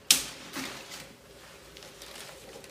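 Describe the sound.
Sharp, crisp snips from cutting a small piece of pine or cryptomeria. There are two quick cuts about half a second apart, the first loud and the second softer, followed by faint rustling in a quiet setting.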